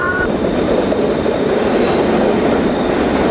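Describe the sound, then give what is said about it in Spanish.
A Mexico City metro subway train rumbles with a loud, continuous roar and hiss throughout, with a brief high tone at the very start. “El metro de la Ciudad de México no solo es un transporte, es una experiencia sonora.”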